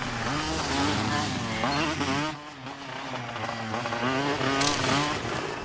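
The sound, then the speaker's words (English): Two scrambler motorcycles ridden along a forest path give a loud, continuous engine drone whose revs waver up and down throughout, with no pause in the motor noise. “A couple of guys are riding along a forest path on scramblers.”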